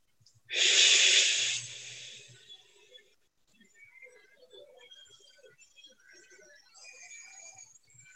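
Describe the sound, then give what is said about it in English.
A deep breath drawn in and let out during a guided release exercise: one loud, breathy rush of air that tails off into a softer exhale, followed by faint scattered background sounds. “One more deep breath.”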